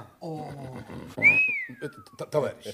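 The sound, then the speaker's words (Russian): A person whistles between stretches of conversation, a single sharp whistle that jumps up quickly and then glides down in a long descending slide, while people talk before and after it. “Что за свист?”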